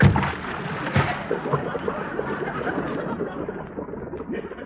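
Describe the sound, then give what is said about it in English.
A person diving into water makes a sudden loud splash at the start, followed by continuous sloshing and churning water that slowly settles. “No, I'll dive in. Here I go. One, two, whee!”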